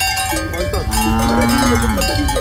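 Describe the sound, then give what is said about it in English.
Cattle with clanking cowbells grazing on a derelict sports field. A busy, continuous jangle of bells runs throughout, with a long, low drawn-out tone in the middle. “The Makau Sports Facility, a multi-million rand collaboration between local and national governments, is now a grazing field for cows.”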